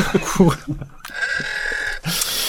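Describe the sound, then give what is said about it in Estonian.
A single sustained note from Peeter Süda's home pipe organ, held steady for about a second between stretches of talk. “õige vastus on Peeter Süda orel , tema koduorel”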